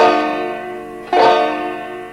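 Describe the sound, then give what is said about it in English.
An E minor chord strummed on a banjo, fretted at the second fret on the fourth and first strings, rings with bright sustained tones, fades, then is struck again once and rings on alone. “That's an E minor chord.”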